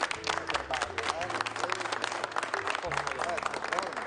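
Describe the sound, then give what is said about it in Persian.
Many hands clap together in thick, steady applause, with voices chattering underneath throughout. “خب پس دیگه حالا دست واقعیه رو الان بزن.”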